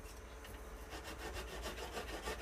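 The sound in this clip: Knife strokes cutting through fatty meat on a board: a rapid, rhythmic series of rough scraping, sawing passes starts after a short pause and keeps going steadily, fairly loud and without talk.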